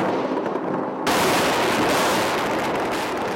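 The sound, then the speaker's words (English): Airstrikes over Baghdad: a low, dull rumble gives way abruptly to a loud burst of noise, which continues as a dense, sustained crackling roar of blasts and fire until the end. “A month and a half after the UN speech, President Bush orders airstrikes over Baghdad.”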